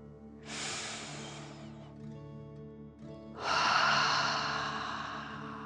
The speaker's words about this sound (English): 3 deep dragon breaths. Deep breath. Filling up your chest and belly, in and out.